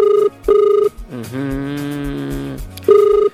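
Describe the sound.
Telephone ringing for an incoming call during a cash prize game: short, bright electronic ring bursts, two close together at the start and another at the end, with a held tonal passage between them.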